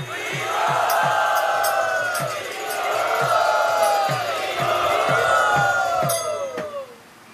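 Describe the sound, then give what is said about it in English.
A large crowd loudly chants Hari Bol as a devotional welcome, shouting in several long, rising waves over a steady, regular percussive beat that keeps pulsing throughout. “Let us very enthusiastically and tumultuously loudly welcome him by saying Hari Bol.”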